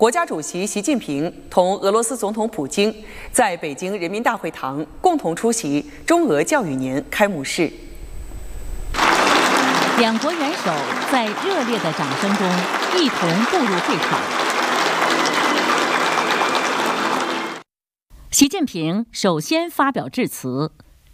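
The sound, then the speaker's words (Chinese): Warm applause fills the Great Hall of the People in Beijing as the Chinese and Russian heads of state enter the opening ceremony of an education year, a dense, steady roar lasting several seconds, framed by a narrator speaking before and after. “两国元首在热烈的掌声中一同步入会场。”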